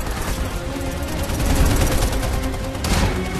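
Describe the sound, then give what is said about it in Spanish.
Machine gun fire from agents parachuting from a plane: a loud, dense, continuous roar of rapid gunfire with no distinct separate shots, swelling slightly midway. “Los agentes saltan en paracaídas y abren fuego con sus ametralladoras.”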